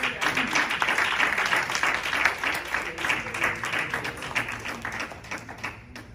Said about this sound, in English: All right, clap your hands to the Lord.